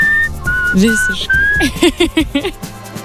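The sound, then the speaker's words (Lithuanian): Whistling in a soul song recording: a bright whistled melody of sustained high notes, followed by a run of shorter rhythmic musical phrases lower down. “kiek aš prisimenu švilpėjimų, tokių ikoniškiausių, tai šitas tikrai vienareikšmiškai yra ikoniškiausias.”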